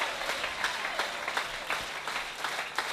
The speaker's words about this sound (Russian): Let's give the Lord a hand. Давайте воздадим Богу аплодисменты.